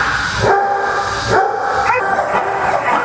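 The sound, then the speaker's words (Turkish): Dozens of dogs barking at a pet hotel in Chengdu, China, with overlapping barks and yips forming a continuous, noisy din throughout. “Çin'de Shangdu'daki bir evcil hayvan otelinde onlarca köpek serin odalarda konaklıyor.”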